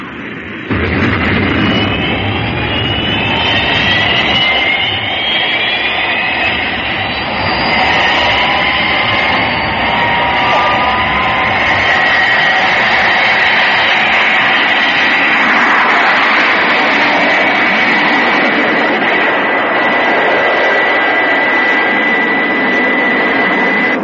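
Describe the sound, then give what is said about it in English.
Jet aircraft taking off at full power: a loud, unbroken roaring blast that holds steady throughout, with high whining engine tones climbing in pitch over the rumble. “Fire Flash to tower. Pre-flight test completed. Takeoff clearance. Fire Flash, you're clear to go. Full power.”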